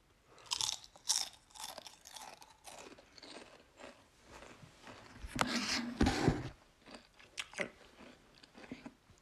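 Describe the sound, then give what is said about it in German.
Crunchy snack being chewed, with many quick, crisp crunches and bites in an uneven rhythm, fairly faint and alone with no talk. “Ich hole da jetzt noch alle rein. Ich snack die einfach so.”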